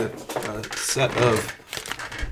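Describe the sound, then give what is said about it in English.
Crinkling and tearing of a foil wrapper as a football card wax pack is ripped open, a dense, rustling crackle that runs steadily for about two seconds with brief louder surges. “I can get this, rip it open without damaging the cards.”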